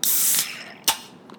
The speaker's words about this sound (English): But let's before we say it, let's crack open one of these. Let's see how refreshing this is.